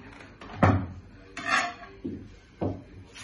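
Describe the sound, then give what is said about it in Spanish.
Tableware clatters as a table is set with a glass, plate, fork and knife: a few separate knocks and clinks of dishes and cutlery, with light rubbing between them. “¿Cómo poner la mesa de más vaso, plato, tenedor y cuchillo.”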